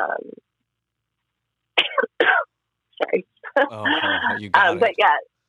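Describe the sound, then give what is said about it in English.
A couple of sharp, abrupt coughs break a short silence and are followed by a stretch of ordinary speech. “every time I cough we gotta go”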